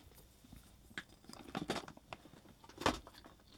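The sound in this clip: Faint, irregular chewing and crunchy mouth sounds as a person tastes instant rice cooked in a stand-up pouch with water, with a few louder bites among quieter munching.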